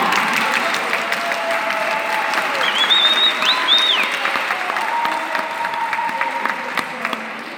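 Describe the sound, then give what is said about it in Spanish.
Applause fills a church retreat workshop as an audience claps steadily for about seven seconds in a dense, even patter that eases slightly at the end. “¡Otro aplauso de confianza!”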